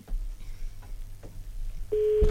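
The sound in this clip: Ringback tone of an unanswered telephone call: a quiet, low background murmur, then one steady, sustained electronic tone starting near the end and continuing to its close.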